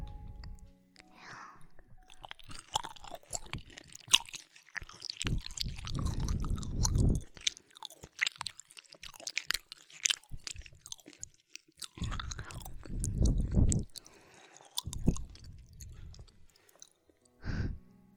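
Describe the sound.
Chewing food during a home-cooked meal: soft crunching and squishing bites come in irregular bursts, quiet overall, with a few faint breathy sounds between mouthfuls.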